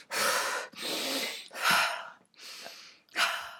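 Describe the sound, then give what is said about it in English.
Wim Hof breathing, done as quick, forceful breaths in through the nose and out through the mouth: five loud, rushing breaths follow one another in a steady rhythm. “Wim Hof breathing is when you do like quick fire in through the nose, out through the mouth”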